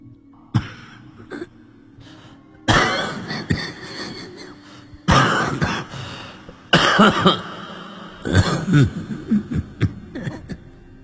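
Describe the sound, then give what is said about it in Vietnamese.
Old woman's hacking cough, like a longtime asthmatic: a few harsh, raspy coughing bursts separated by quieter pauses, with faint short sounds in between. “Đúng là cái tiếng bà già đó, cái tiếng ho khấm kha khấm khứ như là người bị hen lâu năm thì không tài nào lẫn vào đâu được.”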